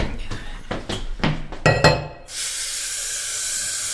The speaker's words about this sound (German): Ich kümmere mich um den Abwasch.